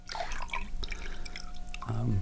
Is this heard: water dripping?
yes